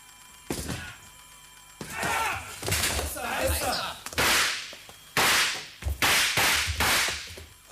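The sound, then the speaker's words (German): An office door on an eighth floor is being broken open: a series of loud, sharp cracking blows and bangs, separated by short pauses and uneven in length, with some splintering noise between impacts. “Sie brechen die Tür zu Tagomis Büro auf.”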